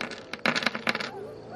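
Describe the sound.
Many dice rolled together during a tabletop game, a quick burst of hard rattling clicks that swells, peaks and fades within under two seconds.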